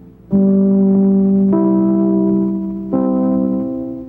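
Radio network identification chimes: three sustained, ringing tones, the second higher than the first and the last lower, each bell-like note decaying slowly into the next.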